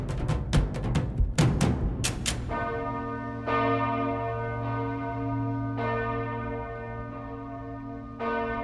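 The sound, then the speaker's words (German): Main bell of a parish church, three tonnes of cast bronze, rings out with a few sharp clangs at first, then spaced strokes over long, sustained humming tones that slowly fade between strikes. “Die Hauptglocke der Pfarrkirche St. Peter und Paul in Bühl bei Baden-Baden. Hier schwingen 3 Tonnen Bronze und erzeugen einen ganz individuellen Klang.”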